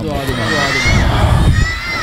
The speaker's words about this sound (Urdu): تو ایک بار پھر درود بھیجے گا محمد و آل محمد پر.